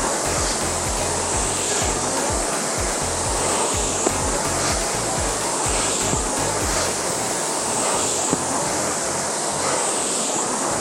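A rowing machine is rowed hard at a high stroke rate, producing a continuous loud rushing whoosh over rhythmic low pulses from each stroke.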